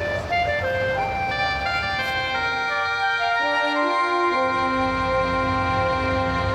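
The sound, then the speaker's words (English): Airport shuttle van driving off: a loud, continuous engine drone with dense, stacked harmonics that shift in pitch, with no voices over it. “Hold that van. Oh, we're going to miss it. Hey, wait for us!”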